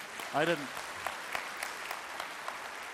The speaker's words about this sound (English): I didn't mean it to come out that way, so you felt like you needed to clap.